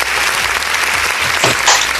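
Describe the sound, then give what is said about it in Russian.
Stormy audience applause greets a band appearing as guests on a live music program. The clapping is loud, dense and continuous, and a voice briefly cuts through near the end. “Мы вас приветствуем под эти бурные аплодисменты.”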